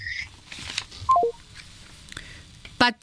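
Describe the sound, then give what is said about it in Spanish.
Telephone dialing tones while a dropped call is reconnected: three short, clear beeps, each lower in pitch than the last, among faint clicks and soft background noise. “se nos cortó la llamada con Patricio Morelos, socio consultor de Poligrama. Lo estamos conectando.”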